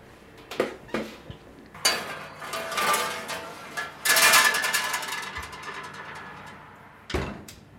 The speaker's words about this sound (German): So, ich glaube, dann können wir den Strudel jetzt reintun in den Ofen.